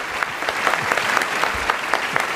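Audience applause for two guest performers after a Macbeth scene: steady, dense clapping from a crowd, even in loudness across more than two seconds, with crisp individual claps standing out and no voices.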